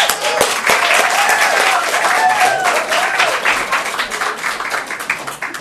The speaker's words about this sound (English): So if you guys would please welcome Dan Hare.